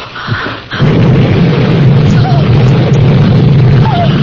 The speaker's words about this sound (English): The gas tank exploded.